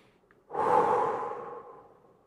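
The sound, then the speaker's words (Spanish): A single deep breath during a guided calming meditation exercise: an airy, breathy rush swells in after a brief quiet moment, holds steady, then slowly fades away, heard alone without talk. “Respiramos profundo, inhalamos calma y tranquilidad. Y cuando exhalamos, imaginamos que estamos exhalando miedo y ansiedad.”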